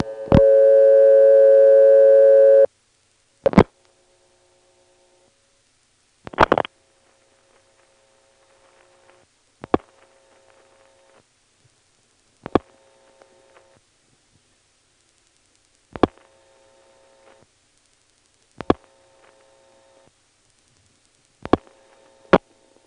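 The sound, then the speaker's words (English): Clicks on a telephone line after dialing a vacant number in the 672 exchange: a steady tone for about three seconds, then sharp clicks at roughly three-second intervals, some trailed by a faint brief tone, with near silence between. “I'll try to notice the click after we dial the last digit.”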